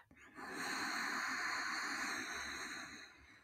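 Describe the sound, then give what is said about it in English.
A slow, deep breath drawn in during a guided body-awareness exercise, heard as a soft, steady airy hiss lasting about three seconds. It is faint, with no other sound. “Checking in with your body, inviting in a big, deep breath.”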